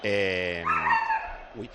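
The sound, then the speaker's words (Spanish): A dog barks loudly, starting with one drawn-out bark and followed by shorter, higher yelping sounds. “¿Cómo se llamaba el perro?”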